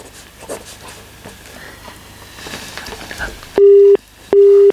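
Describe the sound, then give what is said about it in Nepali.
Telephone busy tone after a disconnected call: two long, steady, loud beeps separated by a short gap, following a stretch of faint crackling line noise. “उहाँको पनि phone disconnect भएको छ”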